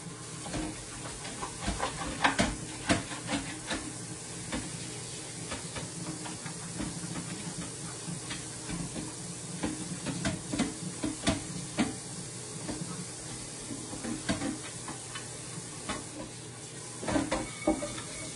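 Zucchini noodles cooking in a pan: a steady, faint sizzle and hiss runs throughout, broken by scattered light clicks and scrapes, with no talk.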